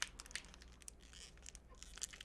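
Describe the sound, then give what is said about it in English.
A collector's edition trading card pack wrapper is torn open, giving faint, quick crinkles and tearing crackles in many small bursts, with no voices. “I'm going to do some ASMR of the package into the mic for you.”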